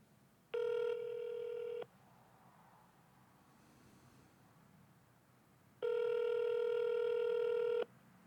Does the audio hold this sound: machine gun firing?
no

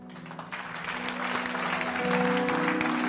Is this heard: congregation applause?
yes

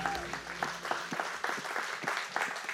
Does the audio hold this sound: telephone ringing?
no

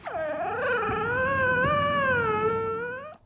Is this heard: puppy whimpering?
yes

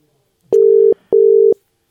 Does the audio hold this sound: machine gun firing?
no

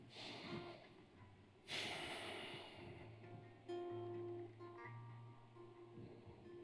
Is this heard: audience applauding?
no

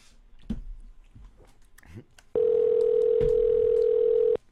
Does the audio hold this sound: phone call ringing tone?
yes

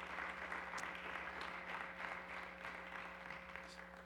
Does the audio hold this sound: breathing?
no

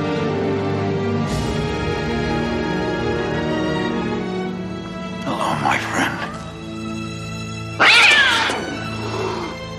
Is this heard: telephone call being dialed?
no

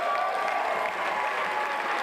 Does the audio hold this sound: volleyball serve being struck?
no

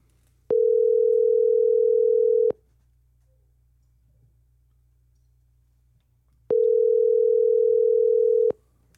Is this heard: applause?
no

